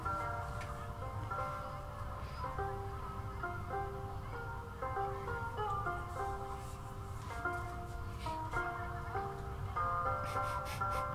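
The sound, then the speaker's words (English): Oriental-style music plays from the Beans ride in a theme park video game. A bright, simple melody steps between chime-like tones over a steady backing, moderately quiet and continuous. “The ride called Beans is playing oriental music, and it's Beans in Spanish. Frijoles.”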